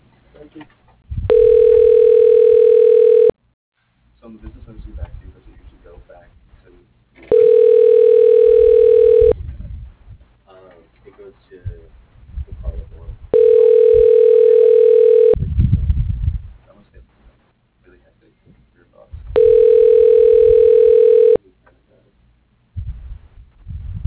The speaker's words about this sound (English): Extension 101. Dialing.